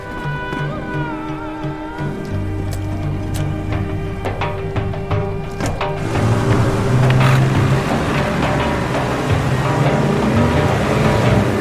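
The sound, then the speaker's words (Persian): Boat motoring on the water, with a steady engine drone and sustained tonal hum that turns louder and noisier partway through as a rushing, splashy wash builds in. “نوری، لیلا و رامین تو قایقه.”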